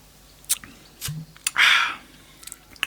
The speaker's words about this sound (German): Ich trinke jetzt mal nur den Reststölzer, den Hefereststölzer, den ich da unten drin gelassen habe, direkt aus der Pulle und gucke, was der kann.